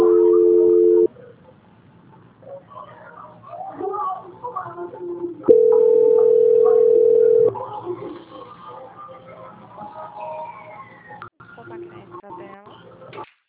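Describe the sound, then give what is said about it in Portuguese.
Telephone ringing tone during a call transfer: two long, steady, mid-pitched tones, separated by several seconds of faint line noise and muffled voices. “É que tá só chamando, só um momentinho. Transferência.”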